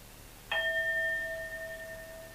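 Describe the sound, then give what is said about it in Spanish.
A singing bowl is struck once during a guided breathing meditation, giving a clear metallic strike followed by a sustained ringing with several bright overtones that slowly fades. “Vuelva a sonar el cuenco.”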